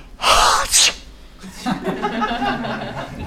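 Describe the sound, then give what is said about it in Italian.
A voice imitates a sneeze, a breathy build-up followed by a sharp burst, then quieter vocal sounds. “And when God was in the bathroom in the morning, he made”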